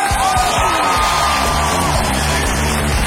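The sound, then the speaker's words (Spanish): Audience at a live comedy show cheering, whooping and yelling, a loud, continuous wash of crowd noise with a few voices rising above it throughout. “Y que sigue el aplauso porque es todo esto, pelitos del público por Hablando Huevadas. ¡Fuerte aplauso!”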